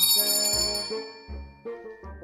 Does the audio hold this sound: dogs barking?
no

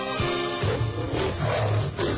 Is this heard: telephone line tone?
no

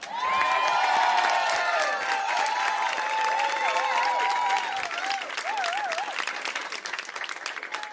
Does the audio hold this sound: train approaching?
no

